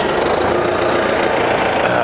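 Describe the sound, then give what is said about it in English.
A bus driving past on a city street, a steady, broad rumble and hiss of engine and traffic noise that stays even throughout. “I just saw Justin Long's face go by on a bus.”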